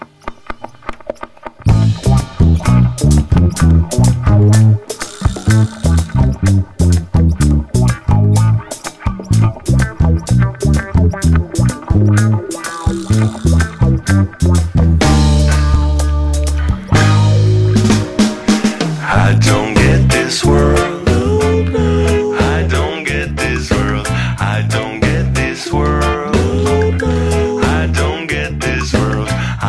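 A song by a Barcelona band plays loudly and continuously with a full band sound, a thick bass-heavy groove and dense instrumentation that kicks in after a brief quieter opening.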